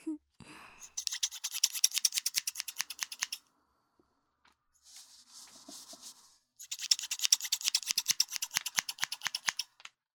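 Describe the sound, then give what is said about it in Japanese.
Scissors snip through hair during a salon haircut: a fast run of many crisp, metallic cuts, a short pause with softer rustling, then another quick series of sharp snips. “はーい、カットは終了。”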